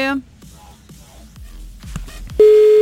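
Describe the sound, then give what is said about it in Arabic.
A telephone tone sounds while a call is placed during a live phone-in. A voice is heard briefly, then a few faint clicks, and then a steady single-pitch tone begins and holds loudly to the end. “انا ما عم بتصل بالرابح, انا عم بتصل هيك بس لحتى نستمتع مع بعض. يلا عم نتصل ب”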